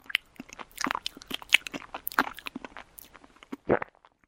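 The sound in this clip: Someone eats crunchy food: many irregular, crisp bites and crunches at a low level, with short pauses between them and one louder crunch near the end.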